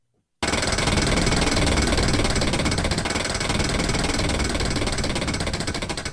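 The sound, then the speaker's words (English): A prize wheel spins with rapid, dense clicking that starts abruptly and runs as a continuous rattle of ticks, holding steady before easing slightly at the end. “So now, without further ado, it's time to spin the Wheel of Bets.”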